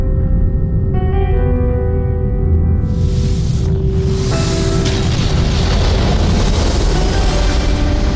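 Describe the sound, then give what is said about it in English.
A 15-megaton nuclear bomb test explosion at Bikini Atoll in 1954: a loud, sustained low rumble that swells into a broad roaring wash partway through, with a steady tonal drone underneath. “March 1st, 1954, Bikini Atoll, Operation Castle, Test Bravo. The military expected a 5-megaton blast. They got 15.”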